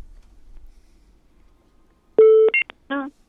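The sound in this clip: Telephone tones of a call coming through during a phone-in contest. After near-silence with a faint low rumble comes a loud sustained electronic tone, then a few short clipped tones and a buzzier, warbling burst.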